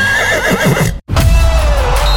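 A horse neighs loudly during a race. A wavering, high whinny is cut by a brief silence, then a long, sustained neigh follows.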